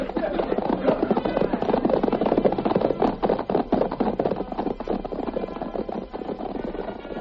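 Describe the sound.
Hoofbeats of several horses being ridden away in a hurry, a dense, continuous clatter of rapid hoof strikes that stays loud throughout and thins slightly toward the end.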